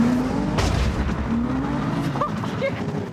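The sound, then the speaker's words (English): Tyre skid and roaring engine from a 350 car pushed hard on a track until a tyre comes off its rim: a loud, continuous rushing roar with a droning engine tone and brief squealing streaks. “I think we may have just took a tyre off the rim on the 350. Yeah, you just completely destroyed your tyre.”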